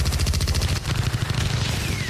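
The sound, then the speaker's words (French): Bursts of automatic gunfire as a team fights its way out of a complex: a loud, rapid, continuous rattle of shots that barely breaks, with one brief dip partway through before the firing resumes. “son équipe en train de se tailler un chemin vers la sortie du complexe, à grands coups de rafales d'armes à feu.”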